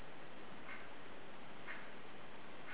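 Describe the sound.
A clock ticks faintly: three soft, evenly spaced ticks about a second apart over a low steady hiss.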